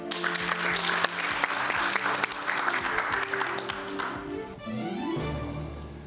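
A studio audience of supporters applauds at a televised political debate, with dense, steady clapping that thins out toward the end.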